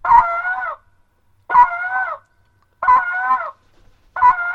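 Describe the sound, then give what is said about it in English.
A goose call blows spit notes: four short, evenly spaced honks, each loud and nasal with a quick break in pitch, separated by silence. “So what you're saying into the call for a spit note is ka-boo.”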